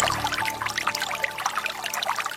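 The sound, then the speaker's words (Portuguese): Holy water gushing from a spring fountain at a shrine: continuous splashing and bubbling water, with a busy, constant trickle throughout and no voices. “A água que jorra da fonte do Senhor Bom Jesus. Água benta e exorcizada.”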